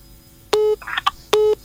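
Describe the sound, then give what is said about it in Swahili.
Incoming call tones on a radio station's phone line: two steady electronic beeps of equal length, separated by a brief cluster of chirpy dialing-like tones, clear and alone. “nitapokea ujumbe, nitapokea simu nyingine hapa kwenye line.”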